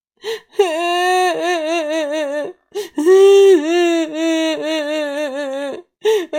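A child cries in a children's story, with sustained, wavering sobbing wails broken by short, sharp gasping breaths. The crying is loud and comes alone in a few long bursts.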